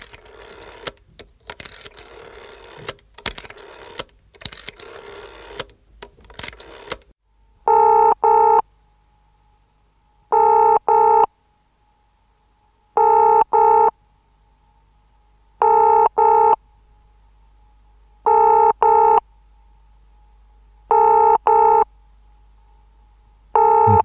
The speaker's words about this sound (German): ich glaube, ich rufe die anderen mal an und äh, guck mal, ob die rangehen.